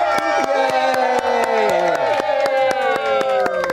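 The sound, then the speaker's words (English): Studio audience clapping and cheering, with loud sharp claps in a fairly steady rhythm over sustained, whooping voices. “We have a studio audience. They can clap.”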